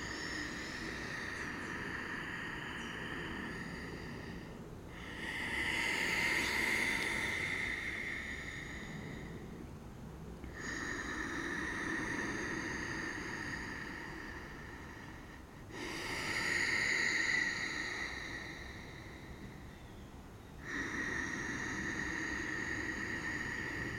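Slow Ujjayi breathing, the throat-constricted breath hissing like ocean surf. Long inhales and exhales alternate in steady phases of about five seconds, soft and even, with no talk.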